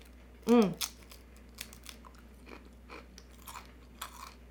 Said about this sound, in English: I'm having chips.